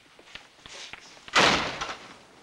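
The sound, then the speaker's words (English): A door is shut with a single loud slam that fades into a short rumble, after a few faint taps and thumps. “then shuts the door behind him.”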